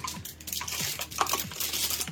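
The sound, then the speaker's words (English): Typing on a computer keyboard, a brisk, steady run of many light clicks over a faint background hiss, with no voices. “can you type a bit louder?”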